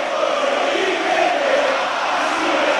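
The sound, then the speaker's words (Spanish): Racing football crowd on its feet, chanting at the club directors in a sustained, dense roar with sung tones running through it throughout. “Escucha, se levantó el público de Racing.”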